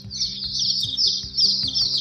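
A baby turkey chirps in a rapid, continuous string of high, thin peeps, fairly loud over a low, regularly pulsing backdrop.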